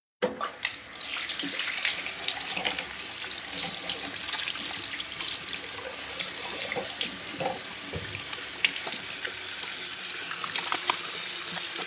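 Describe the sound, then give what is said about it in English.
Water running from a kitchen tap while hands are washed before cooking, a steady, bright, continuous splashing flow that swells slightly toward the end, with no talk over it. “So let's go ahead and wash our hands right now.”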